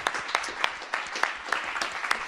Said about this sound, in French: Merci Sylvain, on peut vous applaudir.